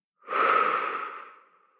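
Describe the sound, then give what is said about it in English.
A single deep, slow breath, soft and airy, swelling quickly and then trailing off gently over about a second and a half, heard alone in quiet. “And we're going to take a deep breath in and out. So breathing in and out.”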